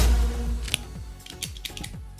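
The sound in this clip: A cigar cutter clips the cap off a La Palina Family Series Miami Pasha cigar with one sharp, bright click, followed by a few softer clicks and light rustling over a low hum.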